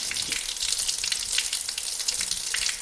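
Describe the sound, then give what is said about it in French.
Water gushes from opened taps in a steady, loud, hissing rush that runs without a break through the whole clip. “Attention, à mon signal, ouvrez les robinets.”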